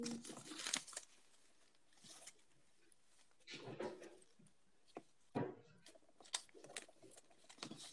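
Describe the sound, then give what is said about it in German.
Slips of paper being shuffled by hand: a few faint rustling and crinkling bursts, separated by quieter stretches. “ich muss nur kurz die Zettel mischen”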